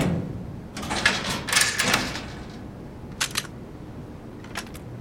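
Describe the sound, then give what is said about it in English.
A weapons locker being opened: a few quiet mechanical clicks and rattles, with a brief latch-like clack near the end and no voices. “Here, weapons locker. Can you get it open? Yeah, my ISD protocol should let me.”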